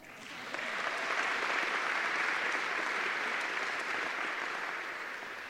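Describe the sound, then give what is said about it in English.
Sustained audience applause for a student organist who has just played the pipe organ at a fall graduation ceremony: dense, even clapping that swells in at the start, holds steady, and eases slightly toward the end. “And it's wonderful that it's one of our students that, are, that is playing it. And so let's give him a hand.”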